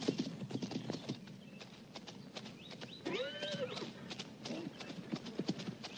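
Hooves of a ridden horse clip-clop in a steady, quick rhythm throughout, fairly quiet, with a brief voiced call rising in the middle.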